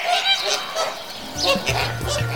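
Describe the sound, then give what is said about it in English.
A flock of flamingos honks in a dense chorus of loud, nasal calls that overlap one another. The calls rise and fall in busy bursts, with no talk. “Or perhaps a ferocious flock of fearsome flamingos?”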